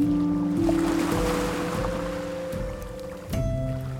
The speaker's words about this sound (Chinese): 听一听这个海浪的声音